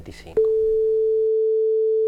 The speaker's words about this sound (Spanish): el tono patrón de afinación va a ser a partir de tal momento tal, como es el tono patrón actual de 440 Hz